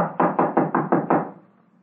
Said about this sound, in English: Door's locked, all right. Well, let's try knocking.